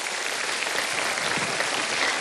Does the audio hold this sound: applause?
yes